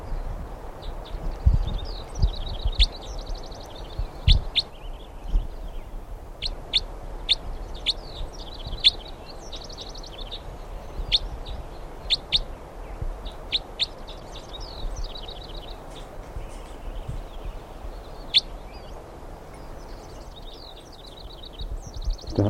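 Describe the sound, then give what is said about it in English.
A numbered bird chirps while being handled: many high, sharp chirps and tweets in short bursts throughout, over a low rustle of handling noise. “Recording, this is bird 319 being handled.”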